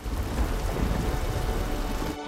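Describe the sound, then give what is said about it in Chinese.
Steady heavy rain and a low rumble of thunder from an approaching storm, forming a dense, continuous wash of noise that cuts off abruptly at the very end, with no voices. “追踪器显示暴风雨要来了”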